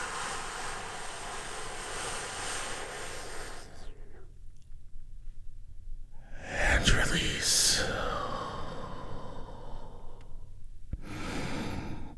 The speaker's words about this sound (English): And I want you to go ahead and take a big, deep healing breath with me right now. Here we go.